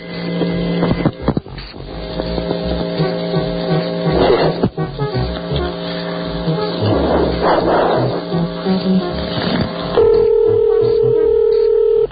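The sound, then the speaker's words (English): Telephone dialing tones over a narrow phone line: a run of steady tones at shifting pitches, mixed with rough, growling noise bursts, ending in a sustained steady tone. “Dialing for operators.”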